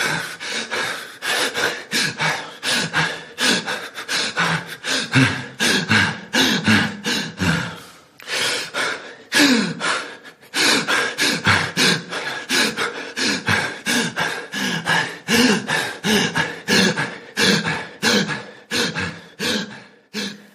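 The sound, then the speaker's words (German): Hyperventilation, with fast, deep breaths in a long unbroken series of many loud, rhythmic inhales and exhales broken only by a few short pauses. “Lange Phasen von Hyperventilation sind übermäßig schnelle und tiefe Atemzüge. Die Phasen dauern recht lange.”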